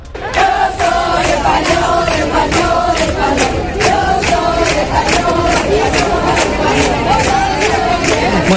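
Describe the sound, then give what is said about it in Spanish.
A large street crowd chants constantly during a royal visit to Melilla: many voices in unison with a steady, driving rhythm of regular beats, loud and unbroken throughout. “Los cánticos han sido constantes, como este que estás escuchando.”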